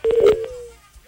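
A telephone tone from an incoming call: one short, steady electronic beep lasting under a second that fades away.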